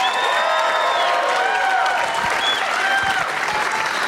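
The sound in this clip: Applause from a live audience at the Bumbershoot festival, welcoming a co-host onstage. A dense, steady clapping roar fills the whole clip at an even loudness.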